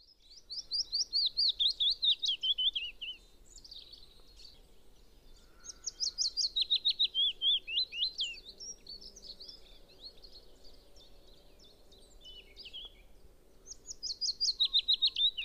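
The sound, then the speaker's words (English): Chiffchaff and willow warbler singing together: three bright, loud bursts of sweet, descending warbling phrases stand out, with softer repeated chirping song continuing between them over a low, steady background hiss. “There's a couple of different species singing away there, but you might have heard the chiff-chaff in the background there. And then there's two species in there. The other one was the willow warbler.”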